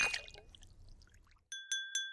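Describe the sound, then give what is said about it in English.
Glasses clinking in a toast: three bright, ringing clinks in quick succession, each leaving a sustained tone, after a stretch of soft clatter and rustle. “let's toast. Let's toast. Cheers.”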